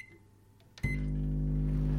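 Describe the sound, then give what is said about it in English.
A microwave oven clicks on and settles into a loud, steady electric hum while heating a used kitchen sponge. The hum follows a near-silent start and holds to the end. “We then popped the sponge into the microwave for about a minute.”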